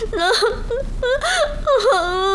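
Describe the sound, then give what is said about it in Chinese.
A person cries and whimpers in several shaky, high-pitched whines. The pitch bends up and down through drawn-out, wavering sobs that carry on without pause. “我求求你，我求求你别哭行不行啊？咱有话好好说好不好？求求你别哭，不哭了，”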